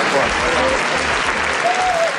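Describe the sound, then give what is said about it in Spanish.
Applause from a crowd of protesters arriving at the entrance of a house after a march over housing evictions, a dense, steady clatter of many hands that holds at an even loudness throughout. “Y fue así, entre aplausos, que llegaron al portal de su casa los manifestantes que han marchado desde la Puerta del Sol hasta el Distrito del Retiro.”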